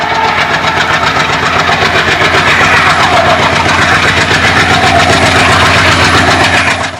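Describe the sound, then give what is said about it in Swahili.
A train engine rumbling with wheels rolling over the rails on a journey from Brazzaville to Pointe Noire, Congo: a loud, continuous mechanical drone with a steady rhythmic clatter that holds throughout. “Balobi alivutiwa na sauti ya injini ya mashine ya treni na matalume ya reli jinsi yanavyosigana.”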